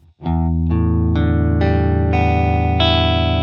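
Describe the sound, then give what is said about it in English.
Open strings of an electric guitar in standard tuning, E A D G B E, played through a chorus effect: six strings struck one after another from low to high, each ringing on and building into a full, shimmering sustained chord. “So normally a guitar goes E, A, D, G, B, E. Those are the strings. Those sound like this.”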